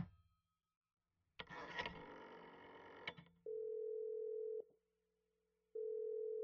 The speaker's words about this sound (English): Operator, I've been dialing Murray Hill 70093 now for the last three quarters of an hour, and the line is always busy, and I don't see how it could be busy that long.